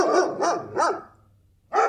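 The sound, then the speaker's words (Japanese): A dog barks outside: four sharp, mid-pitched barks, three in quick succession and a fourth after a short pause. “ちょっと外の犬がうるさいですね。文句言ってきます。 ちょっとすいません、ワンワン鳴くのやめてもらっていいですか。”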